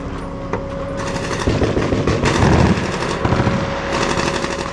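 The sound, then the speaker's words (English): Rapid bursts of gunfire and vehicle engine noise from soldiers and Stryker armored vehicles during a patrol training exercise in a mock village, with dense, loud rattling volleys over a constant mechanical drone and a steady whining tone. “Fort Lewis, a Stryker team on patrol came under fire in a mock village. The soldiers maneuver, return fire, and then clear nearby buildings.”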